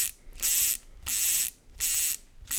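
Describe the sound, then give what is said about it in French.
A fly fishing reel's ratchet buzzes with rapid clicking as line is pulled out, coming in four bursts of similar length separated by short quiet gaps, with no voices. “Et ensuite, je vais passer mon fil. Donc pour ça, bah, tout simplement, je vais sortir du fil.”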